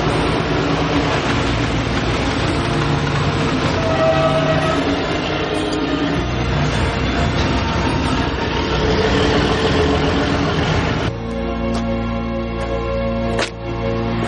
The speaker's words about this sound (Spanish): Una vez descargado se marcha con el camión.